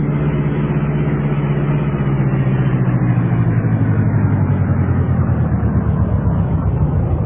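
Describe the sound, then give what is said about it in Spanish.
A luxurious black car drives through the wide gardens of a mansion, its engine giving a steady, loud, low hum with a rough texture. The sound holds constant throughout, with no voices. “el lujoso auto negro de la princesa Jasmine cruzaba los amplios y maravillosos jardines de su mansión”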